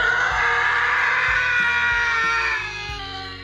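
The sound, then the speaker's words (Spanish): A single long, high-pitched scream ripping through a house, held for about three seconds over low, stepping music tones and fading slightly toward the end. “Un grito rompe la casa.”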